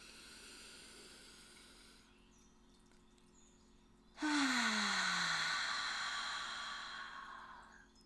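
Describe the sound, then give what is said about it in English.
A deep breath during a guided meditation, drawn in through the nose and let out through the mouth: a soft airy inhale, a quiet pause, then a louder rushing exhale carrying a falling, voiced sigh. “Let's take a nice deep, deep breath in through your nose and out your mouth. Breathe in.”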